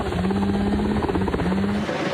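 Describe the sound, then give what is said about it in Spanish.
Helicopters dropping water on hillsides during a wildfire near Reno give a loud, steady rotor drone with a low, throbbing buzz that continues throughout. “Desde el aire, helicópteros lanzan agua sobre las laderas”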